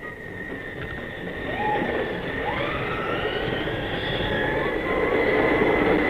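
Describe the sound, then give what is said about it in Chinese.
An express train bound for Vienna pulls into a station with a steady rumble, high sustained whining tones and a few short gliding squeals that grow slightly louder. “注意，开往维也纳的快车到了。”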